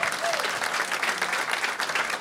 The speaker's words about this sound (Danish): Så mine damer og herrer, giv en gæmpeste hånd til vores næste gæst.